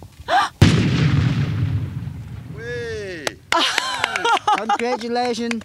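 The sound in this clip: A loud explosion set off by pressing two firing buttons at once during bomb clearance in Laos: one sharp blast followed by a long rumbling decay, then people talking.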